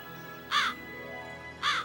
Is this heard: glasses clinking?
no